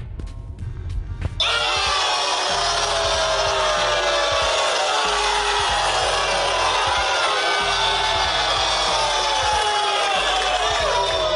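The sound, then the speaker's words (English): Angry studio audience crowd sound effect: after a short, quieter lead-in, a loud roar of shouting and jeering voices bursts in and stays dense and sustained to the end. “Okay, guys, simmer down. Oh my god, these people are so mad right now. If you guys at home could see, they're getting ready to fight.”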